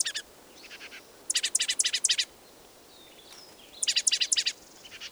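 Two birds call in two bursts of rapid, high, sharp chirps, with softer scattered calls between them, over a quiet background.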